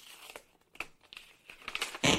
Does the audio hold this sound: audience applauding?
no